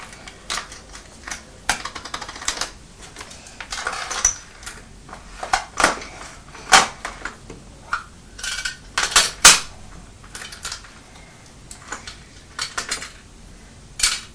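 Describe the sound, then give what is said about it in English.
A teaspoon clinks and rattles against a metal tin in many irregular, sharp metallic taps and scrapes, some louder than others, with quiet gaps between. “Are you putting the teaspoon in the tin where we had the money?”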